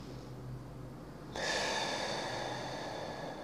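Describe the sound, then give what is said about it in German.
A person takes a slow in-breath during a guided breathing exercise: a faint airy inhale that starts abruptly after a quiet moment and continues as a soft, sustained hiss to the end. “beobachte einfach das Ausatmen und merke, wie es immer länger wird, oder? Wieder einatmen.”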